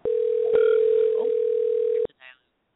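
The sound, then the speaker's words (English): A steady telephone dial tone plays while a call is dialed out, holding one even pitch for about two seconds before cutting off abruptly. A brief burst of voice-like sound follows. “But we're dialing. Let's see if we got you going on here. Sometimes our little dial-out doesn't work.”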